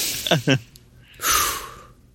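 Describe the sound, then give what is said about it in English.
A person takes a deep breath: two short, voiced catches of breath come first, followed by a long, airy exhale that swells and then slowly fades away. “I'm gonna take a deep breath right now because I'm getting a little bit excited.”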